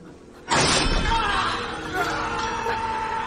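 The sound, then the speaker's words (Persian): A sword tip pierces the wall of a carriage: a sudden sharp crash of splintering and breaking bursts out, then fades into a dense, sustained noisy clatter and rumble. “نوکه شمشیر دیواره یک کالسکه رو میشکافه.”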